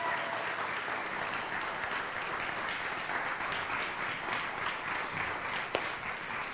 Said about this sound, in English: Let's give him a great big hand this morning.